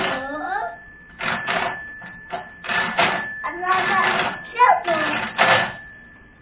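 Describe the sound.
A telephone rings with a bright, steady, repeated bell tone while voices talk over it in short phrases.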